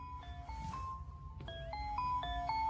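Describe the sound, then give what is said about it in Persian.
A telephone rings with a melodic electronic ringtone: a run of clear, stepped beeping tones that jump between pitches in a repeating pattern, played alone without voices. “الو؟ آقای بک؟ امیدوارم بعد موقع زنگ نزده باشم.”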